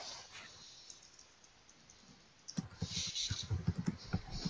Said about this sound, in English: You know, I have a rolling box and I managed to drop one of the two dice outside of it.